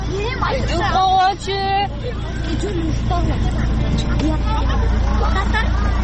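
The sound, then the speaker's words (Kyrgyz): Schoolchildren pile into a crowded marshrutka minibus in the evening, overlapping high voices and chatter over the low rumble of an idling engine, with bursts of louder calls near the start. “балдарга келген кичи бустар эбак толгону менен аларга түшүп жаткан окуучулардын саны азая элек биз да азыр ушундай маршруткага отуруп балдар менен кошо конушка жөнөйбүз”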